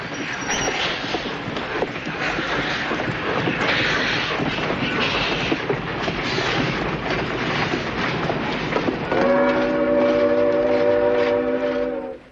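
A train leaving a station in a 1973 Western film rumbles and clatters steadily, then a loud, sustained multi-toned horn blast sounds for the last few seconds before fading out.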